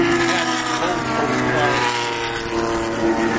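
Race cars, a Corvette and a Mustang chasing each other, make a loud, continuous, droning engine roar rich in harmonics. The pitch wavers subtly and the sound stays sustained throughout.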